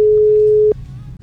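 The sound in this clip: A telephone ringing tone on an outgoing call holds one steady, mid-pitched tone for under a second and then stops, leaving a faint low hum.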